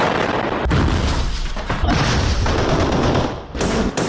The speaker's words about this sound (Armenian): Համասը տարածել է տեսահոլովակ, որը վկայում է, որ Գազայում փողոցային մարտեր են։